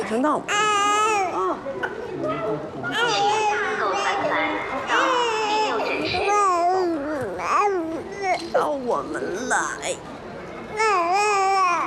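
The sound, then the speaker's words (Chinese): A baby cries in loud, high, wavering wails, sustained across the whole stretch with only brief catches of breath between them. “别哭了，别哭。”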